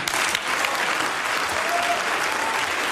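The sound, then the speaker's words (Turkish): Members of the Baden-Württemberg state parliament applaud loudly after a speech, producing a sustained, uniform burst of many hands clapping at a constant level. “Oyununuza gelmeyiz diyen Hagel'in bu sözleri üzerine Baden-Württemberg Eyalet Meclisi'nde büyük bir alkış koptu.”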